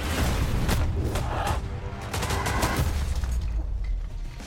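Gunfire in an action film trailer: many sharp, cracking shots in rapid bursts over a loud, rumbling background, continuing throughout.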